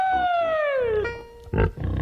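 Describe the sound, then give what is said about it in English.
Pig squealing: one loud, drawn-out squeal that slides downward in pitch for about a second, then a brief rough grunting burst after a short pause. “Come on, pigs! I can't help but smile when I hear it.”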